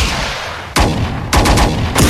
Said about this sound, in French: Monsieur, je crois que c'est des flics sur qui on tire.